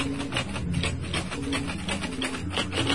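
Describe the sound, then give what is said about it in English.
Typing on old Selectric electric typewriters: a dense, rapid run of many quick keystrokes in an uneven rhythm over a steady mechanical hum. “Yes, typing it all out.”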